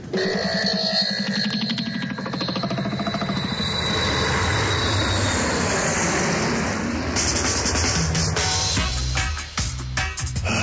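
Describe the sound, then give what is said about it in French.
An airplane engine warming up before a flight, a loud steady roar with a rough, rumbling texture that continues throughout, shifting slightly in tone near the end. “tu fais chauffer l'avion, s'il te plaît?”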